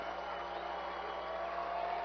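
Steady crowd roar fills a minor-league baseball stadium during an I-Cubs game, in the 8th inning of a game tied at 4, a dense, even wash of murmuring and cheering that holds at one level throughout.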